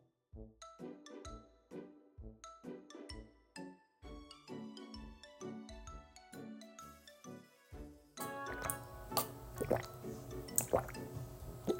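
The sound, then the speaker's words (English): Water dripping in many clear, ringing plinks of varying pitch, spaced at first and then crowding into a denser, splashier patter toward the end. “Water.”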